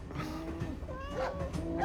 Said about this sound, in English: It's my cow.